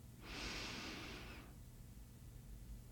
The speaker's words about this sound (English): keep going, thinking inhale, exhale. Inhale,